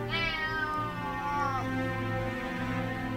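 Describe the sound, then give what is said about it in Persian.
A cat meows with a drawn-out, wavering call, heard alone and at moderate loudness. “نازی جلو می دوید میو میو می کرد خودش را به من میمالید”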